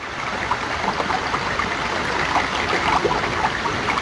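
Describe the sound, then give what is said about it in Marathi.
A river rushing through a channel carved in rock by a powerful waterfall: a loud, steady wash of churning water with small splashing bursts throughout and no voices. “धबधब्याच्या प्रचंड फोर्समुळे संपूर्ण खडकातच नदीचा सुंदर मार्ग तयार झाला आहे.”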